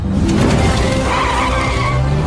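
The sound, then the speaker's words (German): A motorcycle skids out from under its rider and slides into a wall, heard as a loud, dense, steady scraping skid roar that holds throughout, with no distinct separate impact. “Und das Motorrad rutschte ihm unterm Hintern weg und fuhr gegen eine Wand.”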